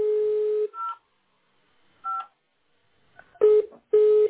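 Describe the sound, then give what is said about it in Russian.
A telephone number being dialed on a keypad: a steady tone is followed by a few short, bright dialing beeps, spaced by uneven pauses and growing denser at the end. “Теперь набираю вас, начинаю набирать.”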